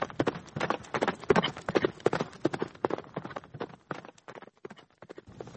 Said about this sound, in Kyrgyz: Жылкы үрккөн бойдон үйгө бет алды.